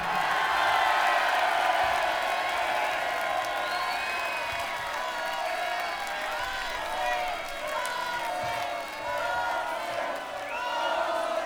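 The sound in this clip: A concert crowd applauds and cheers for the singer, with sustained clapping, whoops and high whistles that stay at an even level throughout.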